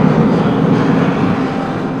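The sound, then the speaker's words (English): Roar of a giant robot's jet rockets igniting for takeoff: a loud, dense, continuous rumble that holds steady and eases slightly toward the end. “Activate your jet rockets and return to base. Engaging rockets now! The White Shogun Zord stands. Its feet ignite as it takes off into the air.”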